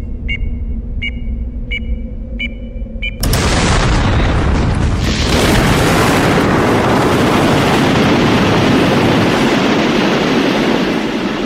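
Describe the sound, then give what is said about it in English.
Dirty bombs detonating as an explosion effect: five evenly spaced high pings are cut off by a sudden loud blast, which turns into a dense, roaring rumble that lasts to the end. “those same surrounding Arab nations retaliated by detonating dirty bombs throughout the holy nations.”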